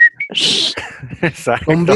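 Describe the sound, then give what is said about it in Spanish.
A short affirmative whistle of two brief, high notes, the second slightly higher, is followed by a breathy hiss and then someone talking. “Chiflido afirmante.”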